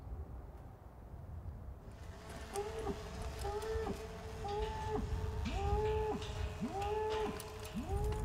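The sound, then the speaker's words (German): Cattle being herded by cowboys into a pen in a forest clearing, with repeated mooing calls in a steady series rising and falling in pitch over continuous low outdoor rumble and movement. “Die Cowboys treiben die Rinder zu einem Pferch auf einer Lichtung.”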